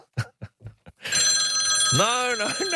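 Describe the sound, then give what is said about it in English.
A mobile phone rings with a sustained electronic tone that begins after a few short spoken syllables and continues to the end. “That was my phone too.”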